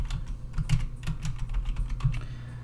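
Fingers type on a computer keyboard, producing many rapid, irregular clicking keystrokes at moderate volume, with no voices.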